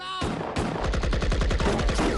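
Gunfire in a battle against enemy positions: many rapid shots crackle in fast, uneven bursts, loud and continuous throughout.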